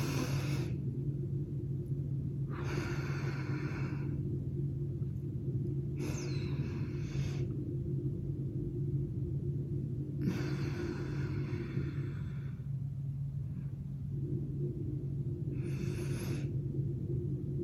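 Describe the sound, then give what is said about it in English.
Slow box breathing, in and out: a few soft, airy breaths with long pauses between them, over a steady low hum. “hold, breathe out, hold, and breathe in. This is box breathing.”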